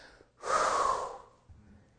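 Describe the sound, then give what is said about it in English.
A preacher breathing out onto people: one long, forceful exhale rushes out as a loud, breathy burst lasting under a second, then trails off into a faint low rumble. “He called his disciples together. Come on over here, Peter. Breathed upon him. John. James.”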